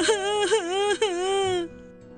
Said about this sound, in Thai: กบอ้วนไม่ต้องร้องไห้แล้ว